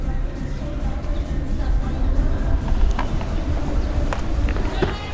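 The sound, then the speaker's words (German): Steady low rumble and road noise of a taxi ride, a broad continuous hum that stays level throughout, with a few faint clicks and knocks on top. “Ich finde zum Glück gleich ein Taxi, das mich zu Ray fahren kann.”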